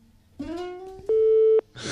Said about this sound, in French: Vous n'aurez qu'un bip, bip, bip. Vous voulez l'entendre ? Je vais le mettre.